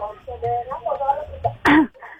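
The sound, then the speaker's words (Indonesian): A single loud, harsh cough bursts out after a stretch of talking and stands alone near the end. “Batuk”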